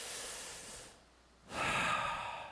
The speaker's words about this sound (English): When you take another nice, big, deep, relaxing breath,